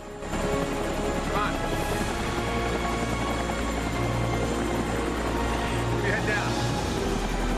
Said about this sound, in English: ushering down a shiny deep blue helicopter.